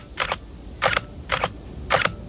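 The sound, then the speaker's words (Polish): Four crisp camera shutter clicks, each a quick double snap, spaced at fairly even intervals with quiet gaps between them and no talking. “Bierzesz aparat, włączasz, celujesz na coś i pstryk.”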